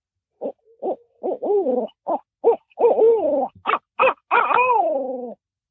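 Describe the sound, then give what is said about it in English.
A human voice imitates a barred owl's hoot, pitched higher and paced faster than the natural call: a rapid series of short, clear hoots ending in one long, drawn-out hoot that slides downward in pitch. “I'll make that sound, but I'll be a little more high pitched with it and maybe a little bit more fast paced, even more so than that of the natural cadence of an owl.”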